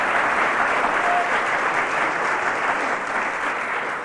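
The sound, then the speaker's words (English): A studio audience applauds after a song by a pair of singers: dense, steady clapping that runs evenly throughout at a constant loudness. “The cheers from the audience.”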